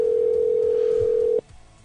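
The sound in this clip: Telephone dial tone on a line before a call: one steady, unbroken tone holds for about a second and a half, then cuts off abruptly into low hiss.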